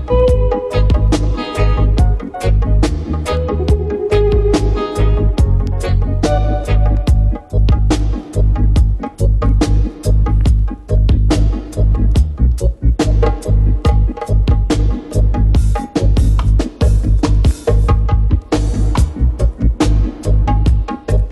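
An upbeat music track plays loudly and continuously, driven by a steady, punchy beat of regular drum hits under bass and melodic layers.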